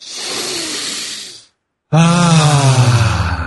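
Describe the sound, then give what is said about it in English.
A deep breath taken to clear the mind: a long, hissing inhale, a brief pause, then a loud, voiced, sighing exhale that holds a low tone before fading slightly. “let's take a deep breath to clear our mind.”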